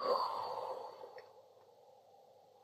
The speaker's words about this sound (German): Und noch einmal tief einatmen und tief ausatmen.